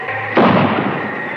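A single gunshot, fired aboard a balloon in strong wind, bursts out suddenly and loudly, then trails off in a noisy, fading decay.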